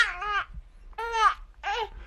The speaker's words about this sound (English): We actually have a young baby on the line. Let us know if you'd like to speak to him.